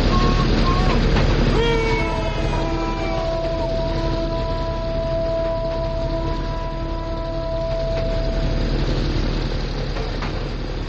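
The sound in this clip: A train runs on rails with a constant low rumble and drawn-out tonal whines layered above it, holding steady throughout.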